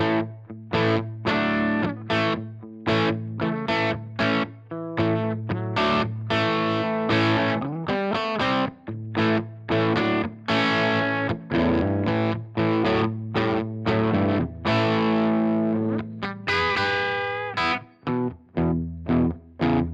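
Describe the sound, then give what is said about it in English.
Distorted electric guitar through a Marshall amp model with a Vintage 30 cabinet on a Strymon Iridium amp and cab modeler, set for rock. Loud, choppy rhythmic chords play alone, with many sharp strums and brief gaps between them. “I'm going to start with the Marshall sound and with the, I think it's the Vintage 30s. This is setting I have. It's a good rock setting.”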